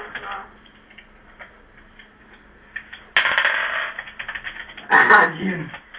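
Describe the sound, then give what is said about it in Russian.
Dice rattling and rolling during a board game: a quiet stretch of faint ticking, then two short bursts of clicking, clattering rattle. “Нужны кубики.”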